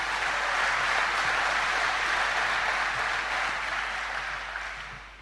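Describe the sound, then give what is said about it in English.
Applause from the audience at a morning service, welcoming a guest preacher: dense, steady clapping that holds at an even level for about four seconds, then fades slightly toward the end. “So let's put our hands together and just welcome Dr. Vinay.”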